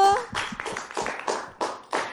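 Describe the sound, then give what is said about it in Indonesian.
Children clap their hands together in a studio during a kids' program, a steady run of sharp, fairly even claps with voices mixed in underneath. “Masya Allah, tepuk tangannya dulu.”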